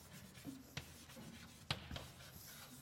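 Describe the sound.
Soft scratchy handwriting strokes as letters are written by hand, quiet and continuous, with a few sharper taps as marks are made.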